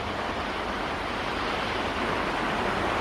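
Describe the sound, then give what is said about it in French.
Waves washing at the water's edge, a steady, even hiss of surf that holds at the same level throughout, with no distinct breaking crashes standing out. “On est bien au bord de l'eau.”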